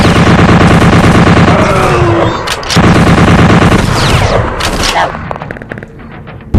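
Turret gun fire in a video game: loud, dense bursts of gunshots that run almost without pause, with a few sharp cracks standing out near the middle and a brief drop in intensity toward the end.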